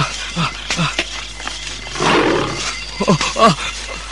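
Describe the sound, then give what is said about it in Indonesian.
A tiger roaring: a deep, rough roar swells in the middle, amid other short sounds over steady background noise. “Moga-moga harimau itu tidak mencium bau manusia. Kesebelasan saja aku menghindar. Suara harimau itu ada di depanku.”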